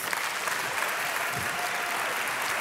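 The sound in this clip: An audience claps steadily as a speaker is welcomed to the stage, with a faint whoop rising above the dense applause midway.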